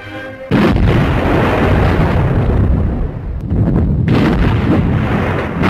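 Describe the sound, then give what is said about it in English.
Warship guns firing broadside after broadside during a naval battle, a loud, unbroken roar of heavy booming blasts that dips briefly midway before another surge of firing. “Die feindlichen Granaten liegen viel zu kurz. Breitseite auf Breitseite jagt aus den Rohren.”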